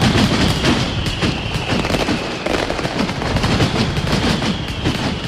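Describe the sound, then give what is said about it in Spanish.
A mascletà firecracker barrage, the sixth contest display of Alicante's bonfire festival, produces a relentless, loud, dense stream of rapid bangs and crackling detonations with no pauses throughout. “Así sonaba la sexta mascleta concurso que disparaba la pirotecnia Alto Palancia con un terremoto a 3.”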